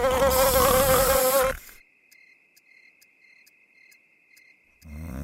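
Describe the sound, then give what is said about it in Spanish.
Buzzing of flies and mosquitoes in a Raid insecticide advertisement: a loud, dense, wavering drone for about a second and a half, then a thin, steady high whine with faint regular ticks, before a louder sound returns at the end. “Raid doble acción. Mata moscas y zancudos. Los mata bien muertos.”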